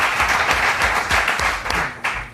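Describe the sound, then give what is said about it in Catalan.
Loud audience applause welcoming the daughter of Johan Cruyff, president of the Cruyff Foundation, with dense, steady clapping that holds at a constant level throughout. “Demano un aplaudiment per a la filla de Johan Cruyff i presidenta de la Cruyff Foundation.”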